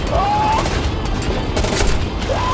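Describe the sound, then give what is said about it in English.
M16 rifle gunfire, sustained and loud, fired at a fast-moving creature: a dense, continuous roar with no separate shots standing out. “I hit it, but the M16s aren't doing anything.”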